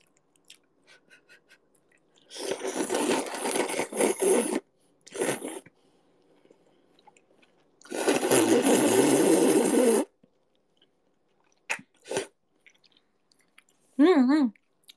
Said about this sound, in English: I want to try eating it because it always looks so delicious when people eat it.